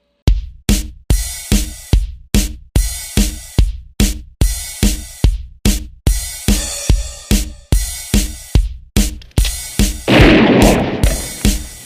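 Shotgun blasts fired while hunting butterflies: many loud, sharp cracks in an even, rapid rhythm, each decaying quickly, with a denser, noisier burst toward the end and no voices.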